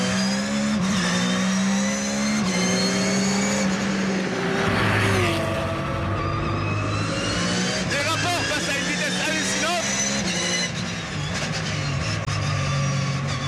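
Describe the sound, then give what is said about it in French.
A high-revving car engine wound up to about 9500 rpm roars continuously, a loud, dense tonal whine with strong harmonics whose pitch steps and wavers as the revs change. “Moteur qui prend 9500 tours. Vous avez bien entendu, 9500 tours.”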